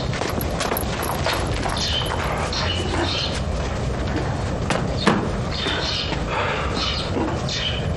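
Horse hooves clip-clopping at a steady pace, fairly faint and mixed with bird chirps over a broad, noisy background.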